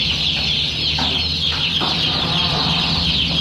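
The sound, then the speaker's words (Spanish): Many chickens cluck on a poultry farm in Europe, their overlapping calls spread over a loud, constant flock din with a low hum beneath, steady throughout with no talk. “El sonido de las granjas de pollos en Europa no volvió a ser igual”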